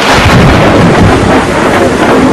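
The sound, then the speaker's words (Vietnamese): A thunderclap with wind: a loud, dense roar and rumble that fills the whole stretch at a steady level, with no voices. “Một tiếng sấm khủng khiếp và gió bao trùm lấy họ.”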